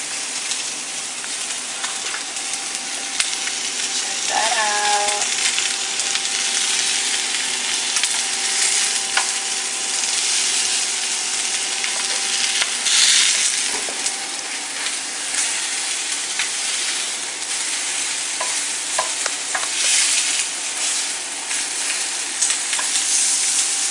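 Fish frying in a pan gives a dense, steady sizzle that crackles and hisses without pause from start to finish, loud and even throughout.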